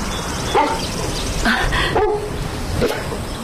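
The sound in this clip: A dog barks and yips a few times in short bursts, rising out of a dense, noisy background with no talking.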